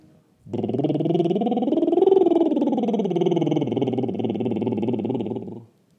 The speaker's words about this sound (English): Bubble lips. Why bubble lips? Well, it keeps the larynx down.